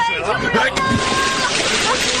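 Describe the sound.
Water splashes and sloshes as a man jumps in to rescue a drowning girl, a sharp splash breaking through ongoing shouting voices.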